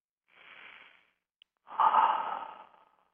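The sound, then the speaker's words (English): A deep human breath: a soft, drawn-in inhale, a short pause, then a longer, louder, breathy exhale that trails off. “Take a deep breath and let it all go.”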